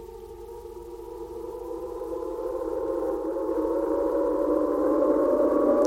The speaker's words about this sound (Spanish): El convertidor gráfico analógico permite convertir en sonido partituras muy complejas, como en el caso de Analogías parabólicas de Pedro Kariewski.